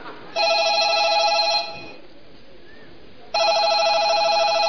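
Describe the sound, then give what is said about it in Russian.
A telephone rings in two long, bright electronic bursts of buzzing trill, separated by a pause of roughly two seconds, with the second ring running to the end. “Звонок.”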